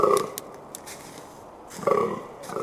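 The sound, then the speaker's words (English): A muntjac deer gives two short, gruff, croaking barks, like a grunting pig. The barks are separated by nearly two seconds of near-quiet with a few faint clicks. “Like the mount jack, it sounds like Jabba the Hutt let loose in the forest, a giant toad coming after you.”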